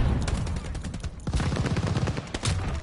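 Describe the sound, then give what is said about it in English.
Rocket launcher and other weapon fire in a video game, a dense, continuous run of loud rapid blasts and shots with no clear pauses. “I love the rocket launcher because they get so mad from it.”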